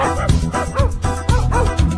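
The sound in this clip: A dog barks in a steady, repeating rhythm, about four loud barks in a row, over a thumping low beat.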